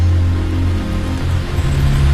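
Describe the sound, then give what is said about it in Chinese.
Rain falling on an umbrella as a steady, dense patter and hiss, with a low hum running underneath throughout. “见左右无人，医生心情颇好的转了一下雨伞，看着雨滴在四周飞溅而落”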